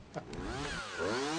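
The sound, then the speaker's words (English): A chainsaw engine drones steadily beside an old tree on an island, its harmonic whine holding level and then revving up, rising in pitch through the second half. “if I make a slight mistake with this chainsaw and chop it down, we can count the rings.”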